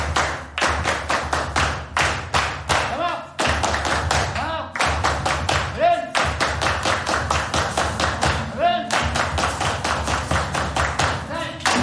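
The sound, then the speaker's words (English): A school bravo at École Zumaré ends a performance: many hands clap together in a loud, driving rhythm with brief pauses, and voices call out between the claps. “Every performance at École Zumaré ends with what Bahuaca calls the school bravo. Le bravo de l'école, attention!”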